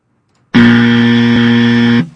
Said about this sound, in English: You have the buzzer ding?